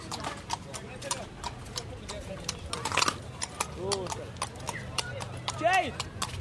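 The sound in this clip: Horse hooves clip-clop in a brisk, even rhythm of many sharp knocks from a mare offered for sale, with people talking over the steps and a few louder knocks near the middle.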